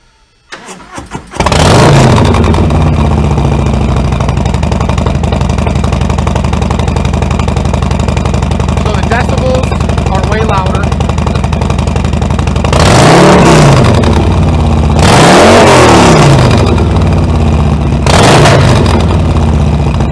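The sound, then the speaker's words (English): A Harley-Davidson motorcycle with a 2-into-1 Bassani exhaust, Screaming Eagle air filter and Stage 2 cam starts up and settles into a loud, rumbling idle, then revs sharply three times near the end. “This bike offers a 2-in-1 Bassani exhaust system, a Harley-Davidson Screaming Eagle air filter, and it also has a Stage 2 cam in it as well.”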